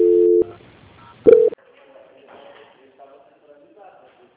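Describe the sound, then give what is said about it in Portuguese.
Telephone tones during a call transfer: a steady tone of about half a second, then a shorter, louder tone burst, followed by faint low line noise. “Aguarde só mais um minuto em linha, por gentileza. Ok. Transferência.”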